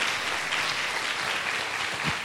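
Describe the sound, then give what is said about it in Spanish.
Applause from an audience in church, a steady, moderately soft wash of many hands clapping that holds level for about two seconds without voices. “¿Por qué no le da un aplauso al Señor por esa realidad?”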